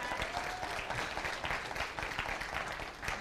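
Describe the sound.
An audience claps steadily after a triathlon finish time is announced, a dense even patter of many hands at moderate volume, lasting the whole short stretch without voices on top.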